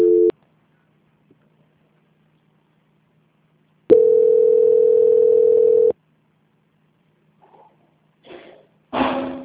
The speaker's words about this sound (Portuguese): eu vou transferir a ligação, tá? Tá bem. Só um minutinho. Transferência.